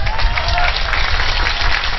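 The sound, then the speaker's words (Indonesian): An audience breaks into applause during a talk by an Indonesian preacher: dense, steady clapping that stays fairly loud throughout. “Urung-urung kok tepuk tangan.”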